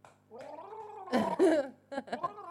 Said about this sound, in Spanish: Un momento, porque está bebiendo agua y se me va a ahogar.